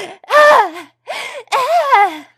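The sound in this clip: A voice imitates someone being choked, making strained, moaning gasps in three bursts. The pitch wavers and bends downward within each burst, and there are short silent gaps between them.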